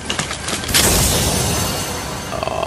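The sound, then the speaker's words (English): Gunfire in a video game erupts as a dense, loud barrage of shots and heavy booms that stays intense and continuous for a few seconds. “Dude, something's shooting at me.”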